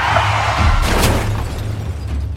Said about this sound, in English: You crashed into the pensioner's minibus.